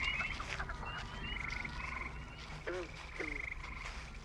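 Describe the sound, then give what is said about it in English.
Frogs croak in a faint chorus: bursts of high rattling trills repeat over a steady low background hum, with a few lower, throatier croaks in between. “The frogs seem back to normal.”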